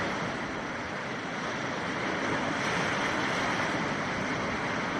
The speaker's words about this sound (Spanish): esto que estás escuchando son las olas que chocan contra el primero de los tres arcos naturales de la playa de las Catedrales en Ribadeo, en Lugo.